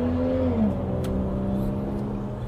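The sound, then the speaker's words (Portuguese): A Ferrari driving off, its engine a sustained, fairly loud low harmonic drone that dips briefly in pitch early on, then holds a steady, even tone as the car moves away. “Ferrari, o cara é, acabou é... de sair com a Ferrari”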